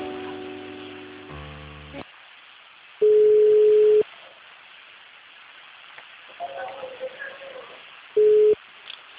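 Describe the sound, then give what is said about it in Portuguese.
Telephone line tones play while a call is being transferred: a brief layered multi-tone burst opens, then two steady single-pitch beeps sound, one long and one shorter, separated by quiet line hiss and a faint murmur. “Só um momentinho que eu vou transferir. Ah, maravilha, beleza, eu aguardo na linha.”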